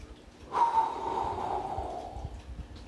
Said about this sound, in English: As your eyes are closed, take a deep breath. Take a breath in.